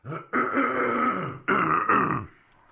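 Throat clearing: a short gruff rasp followed by two longer, rough, voiced bursts of clearing. The sound is moderately loud, with no speech.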